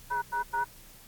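Touch-tone dialing on a call to an AT&T self-service teleconference line in the 700 area code: three short, even, evenly spaced tone beeps, then quiet line hiss.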